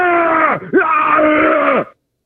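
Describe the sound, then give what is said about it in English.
A man imitates grunting: a short, strained groan, a brief break, then a longer drawn-out grunt whose pitch sinks as it fades. It mocks someone who grunts even when not lifting weights. “making his grunting sounds even when he is not lifting”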